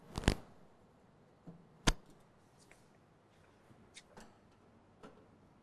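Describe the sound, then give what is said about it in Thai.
Faint, sharp metallic clicks and ticks as four nuts holding a cover are undone, a few scattered taps spread across a quiet background with no talking. “ให้เราทําการถอดในส่วนของฝาครอบนะครับฝาครอบชุดนี้นะครับโดยมีน็อตนะครับจํานวน4ตัวนะครับที่ทําการล็อกตําแหน่งของชุดฝาครอบนะครับ”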